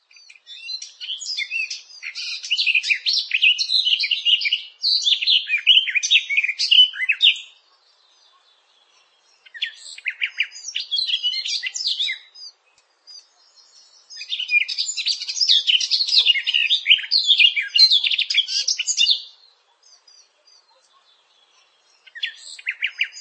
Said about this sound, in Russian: Садовая Славка.